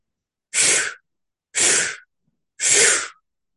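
Three quick, forceful breaths, taken as deliberate inhalations during a breathing meditation. Each is a loud, airy rush of about half a second, evenly spaced, with silence between them.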